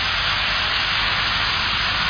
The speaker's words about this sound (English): if you were trackside when the Big Boy steam locomotive rumbled past, you'd say something like, "Damn, that's impressive."